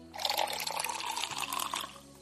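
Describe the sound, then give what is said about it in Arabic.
Water pours into a glass in a steady, splashing stream that runs for about two seconds, fairly quiet, with no talking over it. “خذ خذ يا والدي، تناول كأس من الماء، تفضل.”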